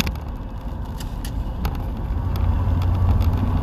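A car drives along and turns in, giving a steady engine hum and road rumble that grows slightly louder toward the end, with no voices.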